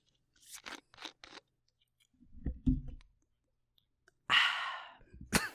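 Opening a can of Coca-Cola Zero begins with a few light clicks and soft handling noises. A sudden sharp pop follows, releasing a loud, brief hissing fizz that quickly fades.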